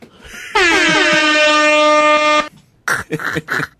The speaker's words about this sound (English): What's the name of that horn? I just Googled DJ horn.